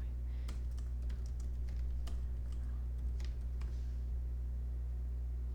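Keystrokes on a computer keyboard during a quick web search: scattered, irregular clicks and taps, fairly light, over a constant low hum, with no talking.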